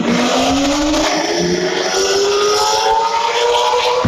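Loud engine roar of a sports car tearing along a street near Jinqiao Road late at night, its exhaust droning steadily and its pitch climbing slowly throughout.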